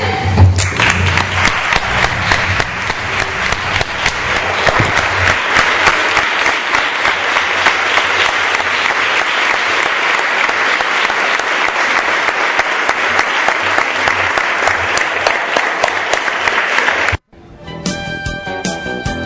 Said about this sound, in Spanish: Queda aprobado y creo que se merece un aplauso.